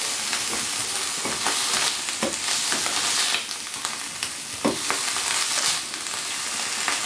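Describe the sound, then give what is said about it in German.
Rice being stirred through melted margarine in a hot pan, a continuous sizzle broken by a few scraping stirring strokes, with no voices. “mit dem Margarine, wo auch so ein bisschen jetzt die Margarine sich drin aufgelöst hat, mische ich dann gleich den Reis durch”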